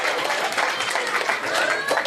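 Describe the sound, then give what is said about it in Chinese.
Audience clapping at a live Chinese stage show: a dense, even wash of many hands clapping at once, holding a steady moderate level for about two seconds without clear breaks. “你看带头鼓掌了还行吗？”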